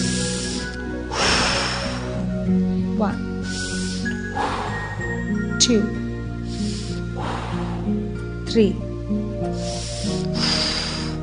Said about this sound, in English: We are going to perform inhale, exhale through the mouth and gentle press on your left knee.